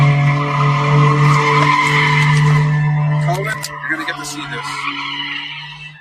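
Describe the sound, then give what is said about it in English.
A car does donuts in a Barnes & Noble parking lot with a loud, sustained tire squeal over engine noise, which fades to a rougher, weaker skid in the last few seconds. “Oh man, he stopped. Why are people doing donuts in the parking lot? That was crazy. I only got to catch the tail end of that.”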